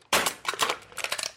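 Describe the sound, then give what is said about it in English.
Crunching and crinkling of a can being crushed, a few sharp crackling bursts in quick succession that fill just over a second, loud and without voices. “And you helped us identify that sound as crushing a can.”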